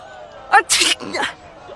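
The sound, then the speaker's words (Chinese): A big sneeze from a man: a short sharp intake of breath, then a loud hissing burst, followed by a softer voiced tail. “扬起脸打了个大大的喷嚏。”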